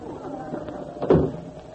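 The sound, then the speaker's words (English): A door opens onto the cold outdoors with a single short, dull knock over a steady low background hum. “Oh, pardon me. Through this door.”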